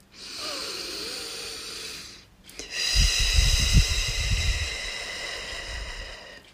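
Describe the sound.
A deep, slow breath, heard as a soft low rushing exhale in the second half, over a steady tonal background.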